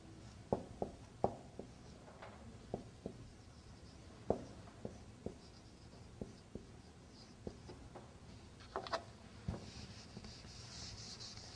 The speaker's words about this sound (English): No, I am writing here.